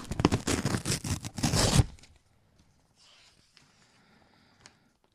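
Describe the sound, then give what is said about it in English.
Something is torn open by hand: a couple of seconds of loud, ragged ripping and crackling bursts, then near silence with only a few faint rustles. “Do we need to tear this open or what? Yeah, tear it open.”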